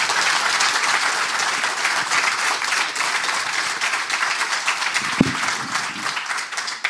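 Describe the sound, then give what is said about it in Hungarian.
A full-house audience applauding at length, with thick, continuous clapping that stays loud and even for about seven seconds, broken once by a brief dull thump. “Ezzel mindig meglepődöm, hogy ilyen sokáig tapsolnak.”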